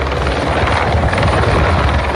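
Firefighting helicopters roar over a forest fire near Lozoyuela in the Madrid region, a loud, continuous rotor and engine drone with rapid low thudding blade beats throughout, with no voices.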